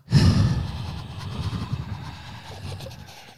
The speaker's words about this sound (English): how we end these is we just breathe into the mic